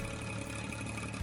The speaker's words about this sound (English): Okay, do you know what that sound is? No, silly. It's not the sound of a motorcycle. That is a fixed-wing drone used by a gentleman by the name of Robert Blair.